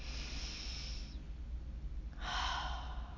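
A slow, deep breath drawn in and then let out during a meditation exercise. Two soft, airy rushes of breath are separated by a short pause. Both are faint and heard alone, without talk.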